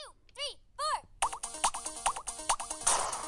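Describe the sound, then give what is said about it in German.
Laser cannon shots in a space-themed rhythm video game: three bouncy, wobbling synthetic tones, followed by a quick, regular run of many sharp electronic zaps with pitched blips, ending in a noisy burst. “Richtig verrückt ist natürlich die Laserkanone, weil du bist im Weltraum und da gibt es irgendwelche Raumschiffe und die darfst du dann sogar abballern im Takt. Das geht so.”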